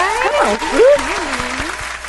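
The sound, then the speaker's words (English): An audience claps for a guest, the brisk applause sounding under a voice that whoops and calls out over it in a short burst. “Y'all clap it up for the wonderful Melanie Marie.”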